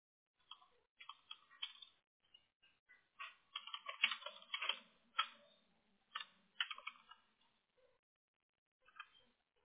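Typing on a computer keyboard: quiet, irregular runs of quick key clicks with short pauses between groups.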